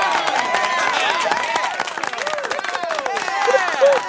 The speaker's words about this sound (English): See, we still have the studio audience that Emerson had. So a lot of people in there. Yeah, I hit the right button,